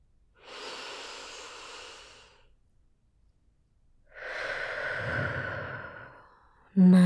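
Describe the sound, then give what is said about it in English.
Slow, deep breathing in a guided relaxation exercise: one long, airy inhale, a pause of near silence, then a longer, fuller exhale let out slowly, soft and without voices. “Start by taking a nice, deep breath for me.”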